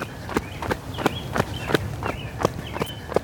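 Running footsteps on grass, a steady, brisk series of soft thudding footfalls in an even rhythm that continues through the whole clip, with no talk.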